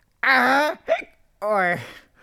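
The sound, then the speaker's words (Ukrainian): A voice imitates hiccups with two drawn-out, wavering voiced cries and a short burst between them. “Ой, що це? Ой. На тебе напала гикавка.”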